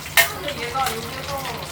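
Food deep-frying in hot oil crackles and sizzles, with a sharp hissing burst near the start settling into a steady, moderate crackle.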